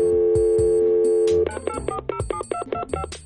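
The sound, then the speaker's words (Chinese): A steady telephone dial tone gives way to a rapid run of touch-tone dialing beeps as a call is placed. The beeps are sharp, evenly spaced and fairly loud, with no voices. “电话很快就接通了”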